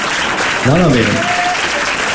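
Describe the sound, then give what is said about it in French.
Applause from an audience of about 100 people, a steady dense patter of clapping throughout, with a voice briefly speaking over it partway through. “Salle de 100 personnes, les applaudissements sont venus que des femmes au départ”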